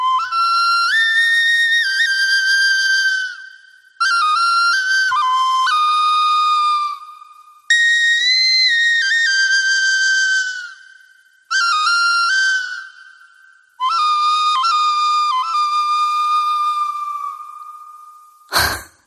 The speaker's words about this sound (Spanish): es una pluma y es hace referencia a la diosa Cocopelli de los indios Hopi de Norteamérica, que es la diosa de la fertilidad, que toca, entre otras cosas, una flauta parecida a esta. A ver cómo suena.